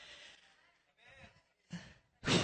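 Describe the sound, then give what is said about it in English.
Heavy breathing from a preacher mid-sermon: four long, breathy breaths separated by short pauses, growing stronger, with the last the loudest. “Should I breathe a few more times? My face going red? Veins are popping?”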